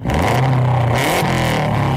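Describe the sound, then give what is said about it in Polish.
A 280-horsepower rally car engine revs in a loud, rough, throbbing roar that holds throughout, with brief bursts of added intensity around the middle. “Tak brzmi 280 koni mocy samochodu rajdowego Kajetana Kajetanowicza, dwukrotnego mistrza Europy.”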